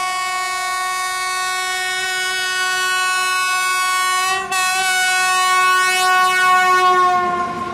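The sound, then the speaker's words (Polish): A train's horn blows in one long, steady, loud blast rich in harmonics as the train slowly starts to move along the rails, with a brief dip partway through before the tone carries on. “Ruszyła powoli po szynach ospale, szarpnęła wagony i ciągnie z mozołem.”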